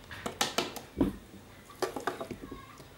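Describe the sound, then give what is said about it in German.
Spoon clinks and scrapes against a pot and bowl as a small portion of homemade dog food is served, a few faint, sharp metallic taps spaced irregularly with soft wet sounds between them. “So, ein bisschen tun wir jetzt in eine Schüssel. Davon.”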